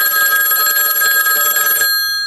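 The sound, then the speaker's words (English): A telephone bell rings loudly in one continuous, shrill metallic trill, then cuts off near the end and leaves a short fading decay. “Good Lord, is that the fire bell? No, it's the phone ringing.”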